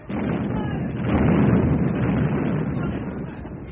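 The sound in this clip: Naval guns fire during a sea engagement at close range: a dense, continuous rumbling roar that builds in the middle, with no clearly separate shots.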